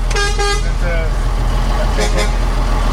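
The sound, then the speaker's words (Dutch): A convoy of vehicles slowly driving out of Emmen behind an old vehicle, a loud, steady engine rumble throughout with horn toots near the start and people talking over it. “Kijk, hier staat de kolonne die achter ons aankomt.”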